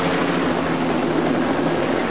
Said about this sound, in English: A helicopter takes off.